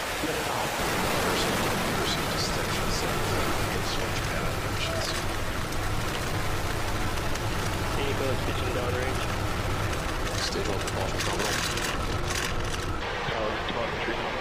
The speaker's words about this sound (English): T-10, 9, 8, 7, 6, 5, 4, 3, 2, 1, 0. Ignition.